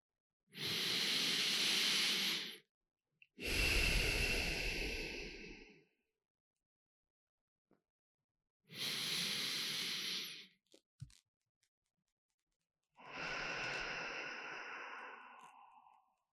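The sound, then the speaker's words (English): Deep, intentional breaths come as four long, breathy whooshes, each drawn out over a couple of seconds and separated by silent pauses. “I think I'll begin today by just taking a moment to take a deep breath or two.”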